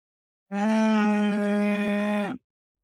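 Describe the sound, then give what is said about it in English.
A cow moos once: a single loud, drawn-out, harmonically rich call of almost two seconds, holding a steady low pitch before dropping briefly at the end, heard alone against silence. “that's a cow mooing for those who can't hear”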